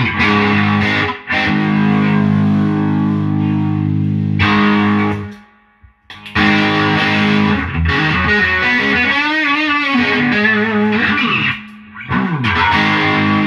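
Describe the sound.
An electric guitar played through a green Amp Turbo overdrive pedal gives thick, distorted, sustained chords and notes, with some wavering bent notes and a few brief pauses between phrases.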